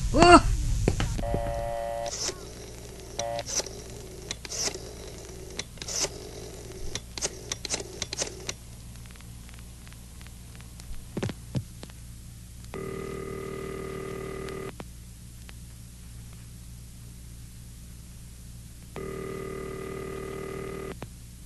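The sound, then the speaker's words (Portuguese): A telephone is dialled and then rings: a run of rapid, uneven mechanical clicks comes first, then two long, steady ring tones separated by a pause of several seconds. “Vou telefonar de novo para o sanatório.”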